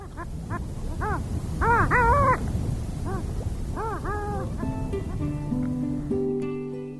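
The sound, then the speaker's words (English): Long-tailed duck calls: a run of nasal, yodeling honks whose pitch arches up and down, some in quick pairs and clusters, loudest and overlapping in the middle, over a steady background hiss. “when you hear this sound, that's the long-tailed duck, our bird of the month.”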